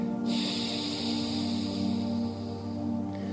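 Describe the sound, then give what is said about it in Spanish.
Forceful exhalation through one nostril during a breathing exercise: a steady, breathy rush of air that starts abruptly and holds at an even loudness for about three seconds, with a faint low hum underneath. “desbloquear la fosa nasal para exhalar y saco el aire por esa fosa nasal únicamente”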